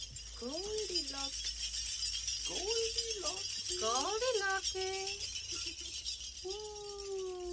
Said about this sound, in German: Klimperkohle. Klimperkohle.